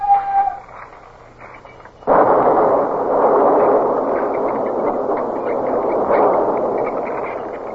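Naval gunfire during a ship-to-ship engagement: a faint hum gives way to a sudden loud blast about two seconds in, followed by a sustained, rumbling roar that holds steady to the end.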